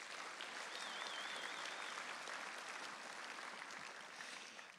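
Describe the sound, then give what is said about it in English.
Applause for graduates and their families at a church service, a sustained wash of clapping from many hands at an even level that eases near the end. “And so for those of you who have graduated, for those of you who have family members that you finally got graduated, just give yourselves a hand.”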